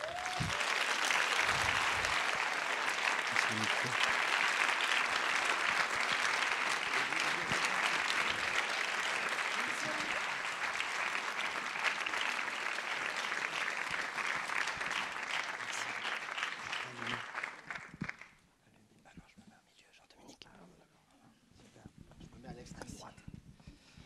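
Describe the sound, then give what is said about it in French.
An audience claps in a thick, loud, even roar as the speakers are invited onto the stage at a discussion event. After about eighteen seconds the applause thins out and dies away into scattered claps and talk. “je vais inviter euh, sous un tonnerre d'applaudissements”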